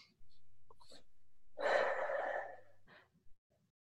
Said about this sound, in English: Deep breath.